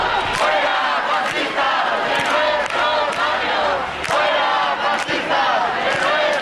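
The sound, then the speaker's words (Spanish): A crowd at a peaceful sit-in outside the Congress on Carrera de San Jerónimo chants loudly and continuously in rhythmic unison, with shouts and cheers rising through the mass of voices. “La sentada es pacífica y se sigue escuchando, así suena la sentada en la carrera de San Jerónimo.”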